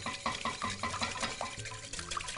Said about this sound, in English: So I'm just gonna get these ingredients incorporated into our royale. So we're just whisking these eggs.